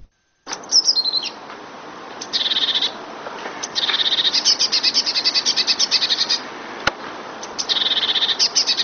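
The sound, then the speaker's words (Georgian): Great tit song: bright, high, rapidly repeated notes come in several rhythmic bursts separated by short pauses, with one sharp click near the end. “დიდი წივწივა ბეღურას ნაერთა რიგის ჩიტია. მას და მონათესავე სახეობებს საქართველოში ბევრს ნახავთ და ალბათ ხშირადაც გაგიგიათ მისი გალობა.”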